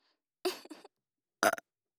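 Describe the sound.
Burping close up: two short, throaty burps separated by a pause, the first broken into a couple of voiced pulses and the second a tighter, louder gulp, against silence.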